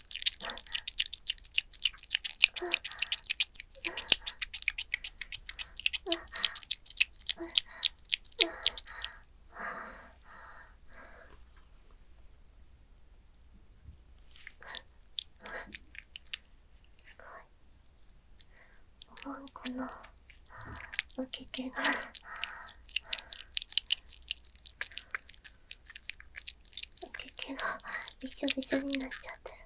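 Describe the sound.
Wet mouth sounds made close to the microphone by moving saliva around: many irregular soft clicks, smacks and squelches, with quieter pauses between bursts.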